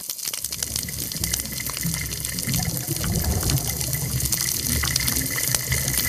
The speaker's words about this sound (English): So we're going to play just a little bit of the sound of a healthy reef now.